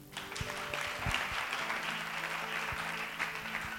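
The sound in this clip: A church audience applauding during a prayer service, a steady patter of many hands clapping at low volume for a few seconds, without a break and without audible voices.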